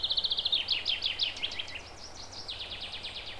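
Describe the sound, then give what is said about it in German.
Bright, high chirps from birds come in quick rhythmic series, fairly faint, over a low background hum where insects such as bees buzz. “hörst das Zwitschern der Vögel und das Summen der Bienen und die Geräusche anderer Insekten um dich herum,”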